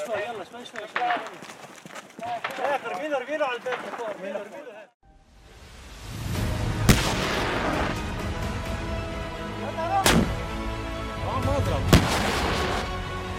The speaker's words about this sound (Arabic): في المحور الثاني تم استهداف المرتفع السابع برميات مدفعية مركزة